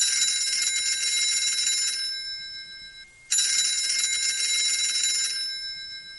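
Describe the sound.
A mobile phone rings in two bursts of bright, high-pitched electronic trilling separated by a brief pause; both bursts are fairly faint and steady.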